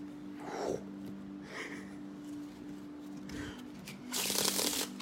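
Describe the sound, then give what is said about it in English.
A deck of playing cards is cut, giving a few soft papery riffles and slaps over a faint steady hum, the final burst louder and longer than the earlier ones. “Let me just give these cards a quick cut.”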